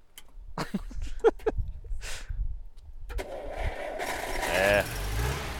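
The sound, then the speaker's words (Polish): Engine of a Żuk van cranking and failing to catch: after a few seconds of voice-like sounds, a rough, grinding mechanical noise starts and holds steadily to the end without settling into a running idle. “O, żuk nie chce odpalić. A to dziwne. Nie chce odpalić, chyba trzeba będzie go pchać.”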